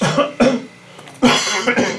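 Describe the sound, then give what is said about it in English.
Harsh coughing at the start of a meeting, a few loud, abrupt bursts in two clusters with a quiet pause between them and no speech. “stop coughing, first of all”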